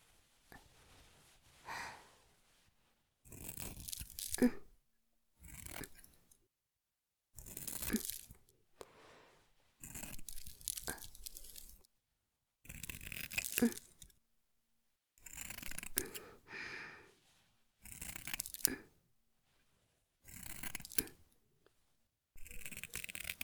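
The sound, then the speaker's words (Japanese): Scissors cut around something in repeated snipping bursts, about ten faint clusters of crisp cuts separated by short pauses. “周り、切るから。”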